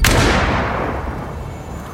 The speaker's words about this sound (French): le capitaine Chip vient de tirer à bout touchant dans la tête de l'un de ses enseignes de vaisseau